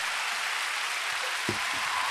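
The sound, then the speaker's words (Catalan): A euphoric, drunken crowd applauds in a dense, steady, fairly faint hiss of clapping that lasts throughout, with a few soft low thumps toward the end. “La gent aplaudeix, borratxa, eufòrica, desorbitada, alienada,”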